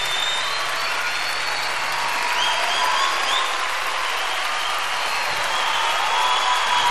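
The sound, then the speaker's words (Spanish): Audience applause runs as a dense, even wash of clapping that holds steady and fairly loud throughout, with no break or fade. “Fuerte el aplauso.”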